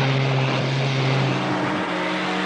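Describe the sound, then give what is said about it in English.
Jeep engine droning as the vehicle drives over bumpy ground, a loud, steady low hum with strong harmonic tones and a rough rumble underneath. “Johnson drives the jeep with Harry in uniform alongside him. Harry grips the windscreen frame and stares at Johnson incredulously as they both lurch up and down with the rhythm of the bumps in the ground beneath their wheels.”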